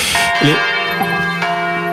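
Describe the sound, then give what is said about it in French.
Church bells ringing a few days before Easter: several overlapping strikes with long, sustained, ringing tones, loud throughout. “Les cloches sonnent. On est à quelques jours de Pâques.”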